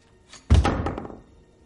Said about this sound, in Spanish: Hace un boquete en una pared con un mazo, lo tira y mira dentro.